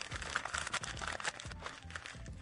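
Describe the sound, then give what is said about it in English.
Sheet of paper being crumpled by hand, a faint stream of dry crackles and crinkles in irregular bursts, alone without talk. “I crumpled the paper”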